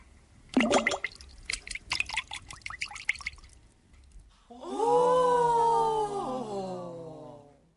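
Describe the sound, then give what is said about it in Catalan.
A crown falls and splashes into a pond, giving a run of quick watery plops and drips, followed by a long, sustained tonal sound. “Li va caure la corona dins l'estany”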